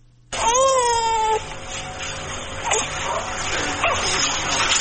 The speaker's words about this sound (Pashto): تفصیل په دې راپور کې چې د ماشوم په غږ پیلېږي.